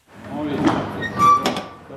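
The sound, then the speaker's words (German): A truck driver opens the cargo hold door of a lorry: a drawn-out, rumbling metallic slide with rattling, swelling midway and again near the end, with a brief thin squeal in between. “Ein Lkw-Fahrer öffnet die Tür zum Laderaum.”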